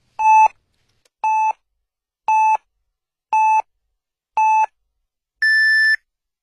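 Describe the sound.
Radio time signal marking 23:00 Beijing time: five short, evenly spaced, identical pure-tone beeps, then a longer, higher final beep.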